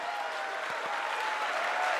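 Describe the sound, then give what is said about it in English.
Applause welcomes a guest onto a show: a steady, dense clapping that stays loud and even for about two seconds, with no break and no voices standing out. “Ladies and gentlemen, put your hands together for tonight's guest, Elemist.”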